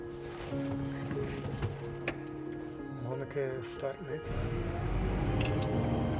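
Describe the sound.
The engine of a combine harvester fitted with GPS guidance starts, its low rumble swelling and holding steady in the last two seconds after people talk over faint ticking noises.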